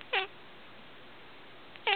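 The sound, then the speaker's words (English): Two short cat meows on a farm, each brief and mid-pitched with clear harmonics, separated by a long quiet gap. “And on his farm he had a cat.”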